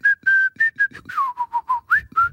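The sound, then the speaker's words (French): A person whistling like a bird, a quick run of about eleven clear, loud chirping notes, some steady and some sliding up or down in pitch, with no talk. “Mais moi aussi, je peux siffler.”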